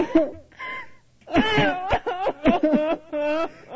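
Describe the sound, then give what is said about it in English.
A looped sobbing sound effect: a voice cries in a series of broken, wavering sobs and wailing bursts with short gaps between them. “This is the one I wanted. Sobbing. Can we just repeat the loop that one?”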